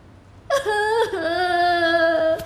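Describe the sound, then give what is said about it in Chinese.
A woman crying, a drawn-out whimpering wail of about two seconds with a wavering, tonal pitch, heard alone with no talking. “你别哭了，你觉得委屈是吗？”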